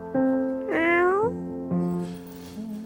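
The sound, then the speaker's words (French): A cat meows a few times in drawn-out, clearly pitched calls. The second meow rises noticeably in pitch before the cries settle into lower, steadier tones. “Je me conduis comme avant. Comme un vrai chat.”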